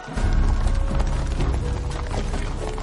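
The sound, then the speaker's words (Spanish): Horses' hooves as medieval riders pass by on a road, a dense, loud clatter of hoofbeats that starts abruptly and carries on steadily to the end. “Sus hombres apartan una carretilla que bloquea el camino. Los jinetes pasan de largo junto a ellos.”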